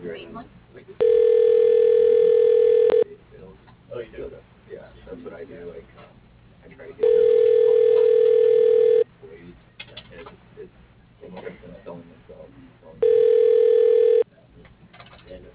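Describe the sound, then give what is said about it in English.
A telephone ringback tone plays while a call is transferred to a receptionist: three even, steady-pitched rings, each about two seconds long, separated by pauses of roughly four seconds. “Please hold while your call is being transferred to receptionist.”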